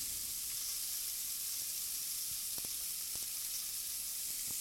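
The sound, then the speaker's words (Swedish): Oyster mushrooms sizzle and fry in a hot pan with butter, a steady, even hiss running throughout with a few faint clicks and crackles scattered through it. “Nu ska vi gå ner med ostronskivlingen i pannan. Du får gärna ta en näve. Ja. Och den är riktigt varm här nu.”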